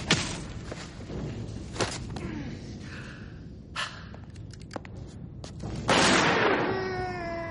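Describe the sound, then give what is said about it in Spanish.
A kick to the face in a 2000 spy action film, heard as a few sharp thuds spread across the scene and then a loud sustained burst of impact noise with ringing tones at the end. “Ambrose le propina una patada en la cara.”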